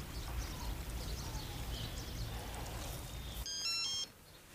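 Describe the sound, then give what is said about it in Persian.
A mobile phone rings near the end with a brief burst of bright, stacked electronic tones over steady low background rumble. “آقا، آقا، خانم میگه موبایلتون هی داره زنگ میخوره، بیان گوشی رو برداری.”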